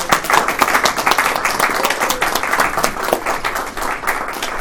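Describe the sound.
Audience applause welcoming a speaker to an evening talk, a loud, dense, steady clapping that carries on without a break from start to end.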